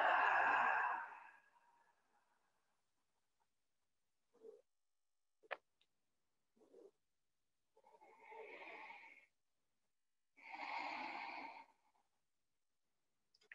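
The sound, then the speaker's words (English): A deep breath in and a long exhale during a guided stretching and breathing exercise, each a quiet, breathy rush of about a second, following a louder sigh at the start and a few faint small sounds in between. “Again, big breath in. Let it go.”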